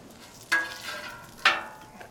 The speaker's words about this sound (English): Oh, this bacon's cooking up a little faster than I thought.